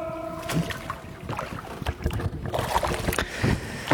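A canoe gliding under a bridge on a Spreewald canal, with irregular soft splashes and paddle knocks over a steady watery hiss and faint echoing reflections.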